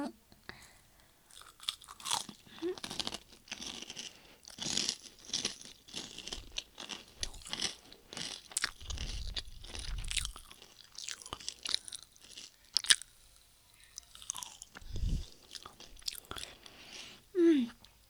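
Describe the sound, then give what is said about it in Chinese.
A person chews and eats crunchy food, with many irregular bites and crunches and soft wet mouth sounds, while voices murmur quietly. “你先把这口吃了，来啊啊，吃掉，我也要吃”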